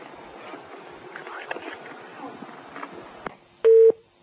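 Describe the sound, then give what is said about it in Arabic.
A single steady electronic telephone busy tone sounds briefly at the end of a call after it is cut off. It follows a stretch of low, murmuring background noise. “قطع الاتصال.”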